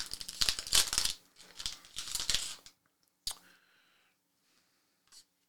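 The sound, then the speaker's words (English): A 2021 Donruss trading card pack is torn open, its wrapper giving a few sharp crinkling rips, followed by a single click and near silence. “Now we're opening up the 2021 Don Russ.”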